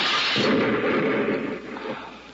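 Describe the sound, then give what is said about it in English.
A hand grenade explodes as a radio drama sound effect, a rumbling blast that swells into a sustained noisy roar and then slowly fades away over about two seconds. “Just one more string inside to pull it. Hey, it's a firing pin of a grenade. Give me that. Look out!”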